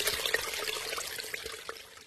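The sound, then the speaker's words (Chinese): Flowing water with a soft, steady trickle, faint and continuous with no talk over it. “一阵悦耳的流水声把我吵醒，闹钟又准时地响了。”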